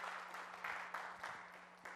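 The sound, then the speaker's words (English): Audience applause for a pastor celebrating six years of leadership at a church, a faint, steady wash of clapping that swells in a few brief surges. “We cannot give you enough applause. Let's do that one more time.”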